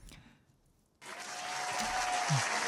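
Audience applause on a Hindi antakshari singing quiz show, breaking in abruptly after a second of near silence and then swelling into a steady, broad clapping roar.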